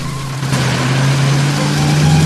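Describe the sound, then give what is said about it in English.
A car engine drones steadily as the car drives forward, with a continuous mid-pitched hum and no voices. “With a slight shake of the head, Buster drives the car forwards.”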